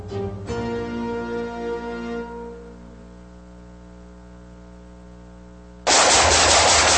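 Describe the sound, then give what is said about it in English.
Loud gunfire from rapid shooting bursts in abruptly near the end as a dense, sustained crackle, following a fading harmonic tone and a quiet stretch. “Nice shooting.”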